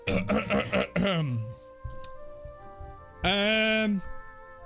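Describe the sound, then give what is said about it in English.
A man clears his throat with a few rough, rasping bursts. A drawn-out voiced hum follows and slides downward, then a second, louder rough vocal rumble comes after a short pause. “And clears his throat.”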